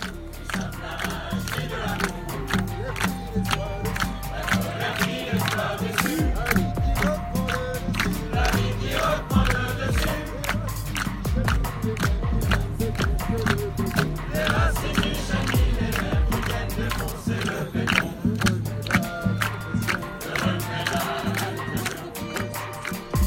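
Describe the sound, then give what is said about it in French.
Crowd noise at an Extinction Rebellion gathering in Parc de la Villette: a continuous mass of overlapping voices with many scattered sharp knocks and taps throughout. “c'était un extrait sonore de la présence hier au parc de la Villette de ce groupe Extinction Rébellion où le mouvement organisait une journée bilan et perspective, après une semaine d'action.”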